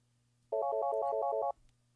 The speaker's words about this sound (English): I think phone calls are still being forwarded, so I gotta change something here.